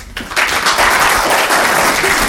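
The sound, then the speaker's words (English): Applause from an audience at the close of a talk on train operating companies: dense, loud, steady clapping that swells in quickly and holds. “That's it from me. Thank you. Round of”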